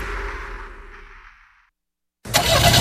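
A car engine starts in a motor-oil advertisement. A rumbling engine sound fades away into a brief silence, then a loud, sudden burst of full engine noise follows and holds.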